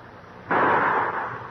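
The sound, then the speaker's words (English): A rifle is fired once during target practice at a log: one sudden loud blast, then a rumbling decay that holds for about a second with no voices. “Don't make your trigger finger do all the work. Use your whole hand and squeeze both butt and trigger. I'll try again.”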